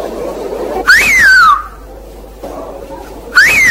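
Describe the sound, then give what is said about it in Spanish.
Traditional island whistled language: two loud, piercing whistled phrases, each jumping sharply up in pitch and then gliding slowly down, separated by a quieter stretch of low background noise. “todavía hay gente en nuestro país que sabe silbar. Con el pequeño, con este.”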